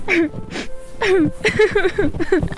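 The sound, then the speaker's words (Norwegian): Someone crying, with loud, shaky sobs and whimpering cries whose pitch wavers up and down in quick, uneven bursts. “Jeg mener ikke forstyrre, men jeg hørte noen gråte.”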